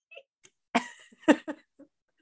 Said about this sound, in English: No, I'm coughing.